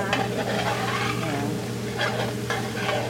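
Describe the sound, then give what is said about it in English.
Vegetarian chili with vegetables and seasonings simmering in a pot, giving a steady, fairly loud sizzle and bubbling hiss that holds throughout, with faint stirring textures and no talk. “All right, that is the chili. With the vegetables and seasonings simmering”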